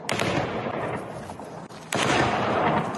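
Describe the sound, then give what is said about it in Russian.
Loud incoming artillery fire pounds a city on the Donbass front line: a dense, continuous wash of blast noise that dips briefly, then surges louder toward the end. “Прилет, артиллерия, украинские банды эти бьют по городу.”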